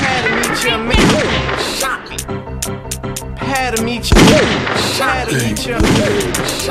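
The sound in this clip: Video game gunshots crack out as several sharp, loud reports spread irregularly across the span, mixed with other game sounds and a voice.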